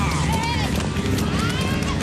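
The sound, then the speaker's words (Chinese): Galloping racehorses just after the starting gates open in a 1700-metre open pony race: rapid, dense hoofbeats and rushing noise that run under a commentator's steady talk. “第一轮的比赛呢是1700米公开组小马组的比赛，开闸了。”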